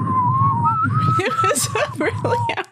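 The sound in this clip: A person whistles a slow waltz tune in wavering, sustained notes that slide between pitches, with talking overlapping the melody.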